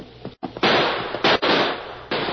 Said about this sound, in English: That last shot hit home.